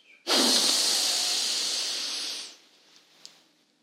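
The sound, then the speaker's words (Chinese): A long, slow breath during a guided children's meditation exercise: one steady, airy rush that swells suddenly, holds for about two seconds, then fades into quiet. “那现在和姐姐一起来做三次的深吸和吐气喽。来，我们深深的吸气。”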